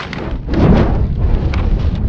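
A book thrown onto a fire and burning, a loud, dense rumbling whoosh of flames with scattered crackles throughout, no voices present.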